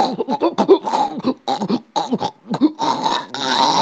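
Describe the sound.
A voice imitates the gurgling from a slaughtered sacrificial animal's cut throat, producing many choked, rasping, throaty bursts in quick, uneven succession that grow denser and more continuous toward the end.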